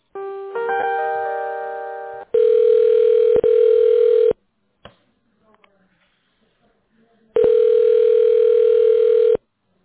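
Telephone ringing tone while a call is being transferred: a short stepped electronic tone sequence, then two long, steady ringback buzzes separated by a few seconds of near silence, loud and clear.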